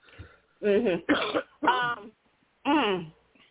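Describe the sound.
Someone clears their throat in four short, voiced, rasping bursts separated by brief pauses, fairly loud and with no other talk around them.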